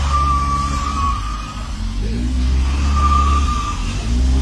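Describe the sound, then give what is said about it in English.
Car engine revving hard as the driver struggles to get out of a shop car park, a continuous low, rough drone with wavering pitch and steady loudness, and no voices. “it can't suck as much as this guy who had a really hard time trying to get out of a Dan Murphy's car park this past week. Take a listen.”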